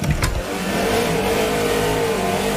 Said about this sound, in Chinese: 啊，你这样加速他不怕撞了吗？